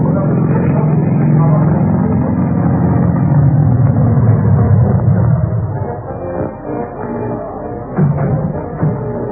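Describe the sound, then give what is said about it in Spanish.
A white luxury Ford car arrives at the entrance of an amusement park, its engine giving a steady, loud rumble that eases and becomes uneven after about six seconds. “Y en ese mismo momento, un lujoso auto Ford blanco llegaba a la entrada del parque de diversiones de Falcon Eagle.”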